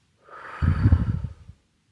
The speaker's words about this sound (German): Atme tief durch die Nase ein und durch den Mund wieder aus.